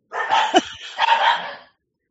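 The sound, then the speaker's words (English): Pet dogs bark in a few rough, excited bursts, with a short pause between the two main volleys and another bark starting at the very end. “My dogs are going crazy.”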